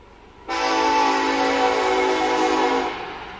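A train horn sound effect played at a college baseball game: one long, loud, steady multi-tone blast lasting over two seconds before fading out, with no talking over it.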